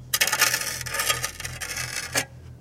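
Gritty scratching and scraping as soil is cleared away while digging around a buried metal object, a bomb: a continuous rasp of many small rubbing strokes over a low steady hum.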